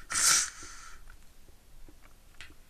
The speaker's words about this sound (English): Sorry if it sounds like I'm sneezing, I have a cold.